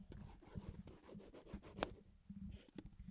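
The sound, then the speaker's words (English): Scribbling on paper in a back-to-school setting makes a faint, busy scratching, with many quick rubbing strokes in an uneven rhythm and no voices. “We were scribbling. Yep, you could be drawing, writing, but we were just scribbling.”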